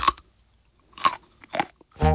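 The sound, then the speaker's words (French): Crisp crunches of a raw carrot being bitten and chewed: three separate crunchy bursts at uneven intervals, followed by a short voiced hum. “met un bout de carotte dans sa bouche, il me regarde, et il croque dedans.”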